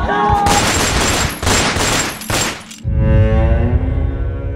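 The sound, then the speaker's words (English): Gunfire in an armed attack on a home: a rapid burst of several loud, sharp shots in quick succession, followed by a lower rumbling tail. “They open fire.”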